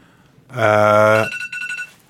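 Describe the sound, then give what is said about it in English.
A telephone ringing: one loud, sustained buzzy ring with a rich harmonic tone, followed by a few shorter pulsed bursts of the same ring. “who's on the phone?”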